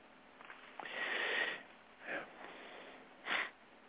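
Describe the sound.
A person takes a few quiet breaths through the nose: one long, airy inhale, then two shorter sniff-like breaths, all faint and soft against low background hiss.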